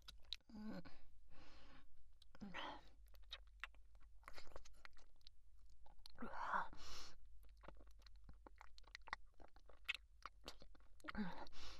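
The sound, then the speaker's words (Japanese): Crunchy chewing of food, with bites and munching sounds at an uneven rhythm, fairly quiet throughout. “私のご飯なのに、あなたの方が食べてるし。”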